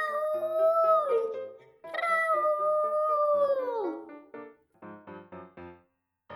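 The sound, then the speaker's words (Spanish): A human voice imitates an 11-year-old cat crying for its food: two long, wailing meows, each bending down in pitch at the end, followed by a few short, clipped voiced sounds. “Maulla llorando hasta que le bajo el platito. Tiene 11 años. Muchos gatos, cuando lloran, parece como si dijeran”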